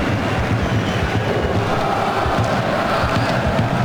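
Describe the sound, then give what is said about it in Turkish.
A football stadium crowd at Fortuna Arena in Prague roars and applauds a player, making a loud, continuous wash of massed noise that barely changes over the few seconds. “Prag'da alkışlar adam Loşek'e.”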